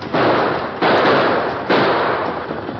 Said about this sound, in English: Both Purdy and the masked man fired again, exchanging shots, then fired again